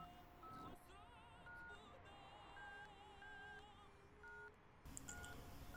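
Touch-tone beeps sound as a telephone number is dialled, a series of short, steady, evenly pitched tones spaced irregularly, faint against a continuous background hum.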